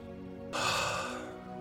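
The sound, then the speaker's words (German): A slow, deep breath during a guided relaxation for falling asleep: a long, soft breathy rush starts about halfway through and holds to the end over a quiet, steady tonal background. “Ich atme einmal stellvertretend für dich mit durch.”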